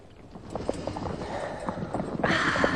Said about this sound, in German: Kaum, dass man den Hufschlag der Pferde vernahm.